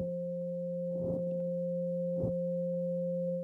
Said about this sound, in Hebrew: 528, שזה תדר האהבה והניסים, תדר סולפג'ו עתיק, תדר של טרנספורמציה, הוא אגב נשמע ככה.